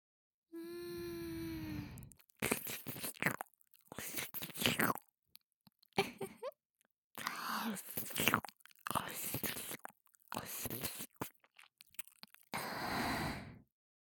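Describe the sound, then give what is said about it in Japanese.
Wet licking and mouth sounds near the ear, as in close-miked ear-licking play, come in many soft, intermittent bursts of smacking and slurping with short pauses between them. “びっくりした？大丈夫よ。君のお耳を舐めるだけだからね。”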